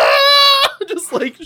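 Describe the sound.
A voice imitates a man wailing: a sustained, high, tonal wail that ends abruptly and is followed by a few short, broken vocal sounds.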